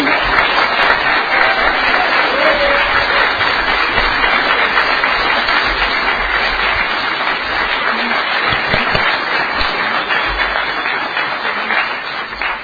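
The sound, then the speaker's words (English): An audience applauds to welcome a speaker at a conference: dense, sustained clapping at an even loudness that eases slightly at the end. “Please give her a warm welcome.”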